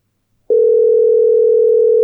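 A telephone dial tone sounds while a call is being placed. After half a second of silence, a loud, steady mid-pitched hum starts and holds unchanged to the end, with no talk.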